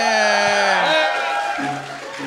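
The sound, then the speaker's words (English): Players whoop and cheer over a natural 20 dice roll in a tabletop role-playing game. Several voices hold loud, sustained shouts together for a couple of seconds. “That got a better cheer than I thought it would. Than anything else I've said tonight.”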